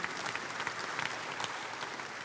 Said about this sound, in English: And some of you clap like you don't believe that.